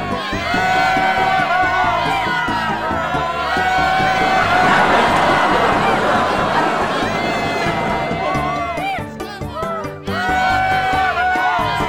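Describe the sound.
A crowd cheers and whoops at a grand royal celebratory welcome for a ship's captain. The loud, continuous shouting swells in the middle and dips briefly near the end before picking up again.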